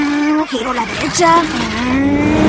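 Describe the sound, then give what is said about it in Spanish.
BMW car engine as the car drives off and turns right, a loud, steady motor drone whose pitch wavers up and down as it revs, continuing throughout. “Va un BMW.”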